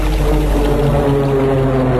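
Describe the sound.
Mosca fighter planes fly overhead with a loud, steady droning rumble of propeller engines. A constant low hum with layered tones runs unbroken throughout.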